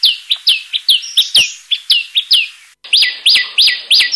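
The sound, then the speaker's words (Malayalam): A common tailorbird gives loud, high, sharp chirping calls in a rapid, evenly spaced series. A brief pause breaks the series before the same insistent notes resume. “തുന്നാരന്റെ ഒന്നോ രണ്ടോ ശബ്ദങ്ങൾ അഥവാ കോളുകൾ നമുക്കൊന്ന് ശ്രദ്ധിക്കാം.”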